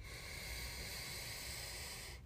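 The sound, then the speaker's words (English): A deep, slow breath drawn in through the nose during a guided meditation, heard as a soft, steady airy hiss lasting about two seconds and stopping abruptly, with no talking over it. “Taking another deep breath in through the nose.”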